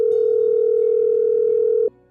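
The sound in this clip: Telephone dial tone for an early morning call, a single steady mid-pitched hum held evenly, then cut off abruptly near the end.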